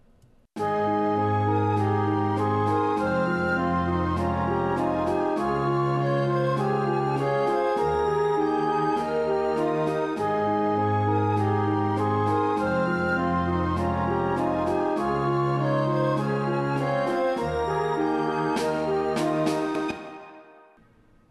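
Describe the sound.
Music with snare drum and layered melodies: three melodies plus a variation over harmony and percussion, building toward a climax. The full ensemble plays steadily with repeating rhythmic phrases and crisp snare hits that grow more prominent near the end before a quick fade.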